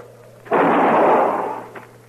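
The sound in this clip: A single loud gunshot fired on private land bursts in abruptly and rolls on as a roaring blast that fades away over about a second.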